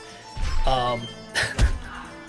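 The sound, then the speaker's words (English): Punching thwacks and thuds sound within Street Fighter-style combat music. A couple of heavy low hits stand out against tonal, voice-like sounds. “Is that the sounds of people getting punched? This is actually combat music. Yeah. This is like Street Fighter music.”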